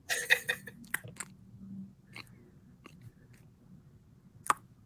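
Someone chews a cookie right into the microphone, starting with a loud cluster of crunchy bites, followed by quieter, wet chewing and a few scattered sharp crunches, with one more crisp crunch near the end.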